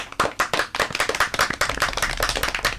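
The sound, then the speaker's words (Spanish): Applause for stories written by students: many hands clap fast and densely, holding an even, lively level with no pause for the whole stretch. “Hagamos un aplauso para todas estas historias que escribieron.”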